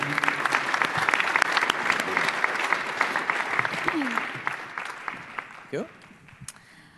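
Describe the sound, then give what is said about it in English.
Applause from an audience welcoming two speakers onto a conference stage for an on-stage conversation with a tech company CEO, a dense, loud wash of clapping that thins out toward the end. “So ladies and gentlemen, please give a warm welcome to John Chen and Amber Kanwar.”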